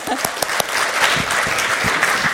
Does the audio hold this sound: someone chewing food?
no